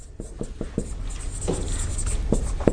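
Handwriting of a single letter J: a few short, scratchy pen strokes break through a steady background hiss, with no speech.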